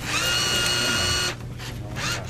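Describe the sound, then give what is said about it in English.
A Pepsi vending machine pulls in dollar bills with a steady mechanical whir and a high tonal whine for over a second. It then drops to a lower rumble before a second, shorter whirring burst. “Kurt Davies from Greenpeace feeds a couple of dollar bills into a Pepsi machine. Bit of a robot machine, isn't it? I've never seen that before. It kind of picks it up and gives it to you.”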